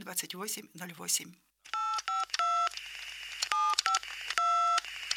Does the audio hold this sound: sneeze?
no